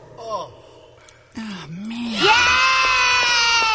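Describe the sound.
Children cheer excitedly after a toast with a sweet non-alcoholic drink. Their high voices build into one long, sustained shout that holds to the end.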